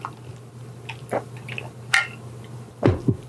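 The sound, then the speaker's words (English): Sips of water, a few quiet wet slurps and squishy swallows spaced out over a soft background, with no talk. “So I'm gonna take a sip of water.”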